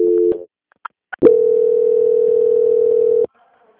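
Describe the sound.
A telephone tone plays while a bank call is being transferred: a short tone, a couple of soft clicks, then a loud, steady, unbroken tone lasting about two seconds before it cuts off abruptly.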